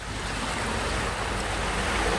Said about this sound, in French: C'est la mer, ça. Oui, ce sont les vagues.